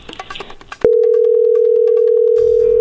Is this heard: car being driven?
no